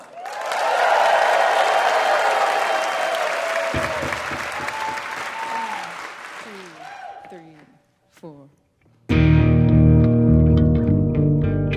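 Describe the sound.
Audience applause for musicians Aimee Mann and Ted Leo at a live performance; steady, loud clapping rolls on for several seconds, fades into a brief near-silence, then loud band music abruptly begins.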